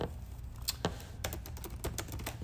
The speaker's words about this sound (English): All right, let me see if I can type it in real quick.